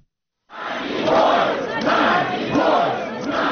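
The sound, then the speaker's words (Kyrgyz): Protesters outside the Russian embassy in Kyiv shout together, a loud and sustained crowd roar that swells several times. It begins after a brief silence. “Киевтеги орус элчилигинин жанына чогулгандар Надеждага эркиндик деп кыйкырып турушту.”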